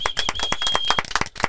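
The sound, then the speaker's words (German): An audience claps to mark a one-year anniversary, with many brisk, fairly even claps forming a steady patter that stays at a constant level throughout. “Da können wir eigentlich schon mal nochmal klatschen fürs Einjährige,”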